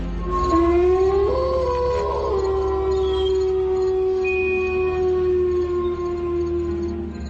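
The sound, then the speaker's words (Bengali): Jackals howl at night with crickets: a long howl rises early, then holds a steady pitch for several seconds while thinner higher calls layer above it. “একটানা ঝিঝি ডেকে চলেছে, এবার তার সঙ্গে শিয়ালের ডাক যোগ হল।”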